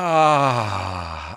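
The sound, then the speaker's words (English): A passionate, moaning exhale by one person during a group breathing exercise: a single loud voiced out-breath about a second and a half long. Its pitch sinks slowly as it fades. “And we breathe out passionately,”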